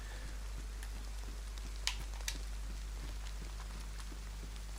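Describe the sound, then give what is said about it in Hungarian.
Rain in a video game makes a faint, steady hiss of falling drops, broken by two brief, sharp ticks midway. “bár lehet, hogy ezzel meg fogom várni, hogy elálljon az eső, mert annak semmi értelme, hogy megszárítkozom, aztán újra elázom.”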